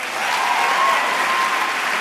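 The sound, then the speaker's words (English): Long applause from a standing audience for Boston mayor Menino's pledge of pay equity for women in a city address: loud, dense, sustained clapping that swells slightly and holds steady throughout. “In a night of standing ovations, that remark drew the longest applause.”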